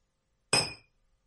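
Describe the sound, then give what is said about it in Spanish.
A single bright clink of glasses touched together in a toast, with a sharp ringing attack that fades over about a third of a second, heard alone with no voices. “Un brindis por los dos, ¿no?”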